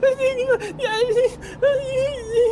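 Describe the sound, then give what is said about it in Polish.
A person dressed in red starts to cry, letting out a wavering, whimpering voice that quavers up and down in pitch in broken bursts with short gaps between them. “Ten czerwony zaczyna płakać.”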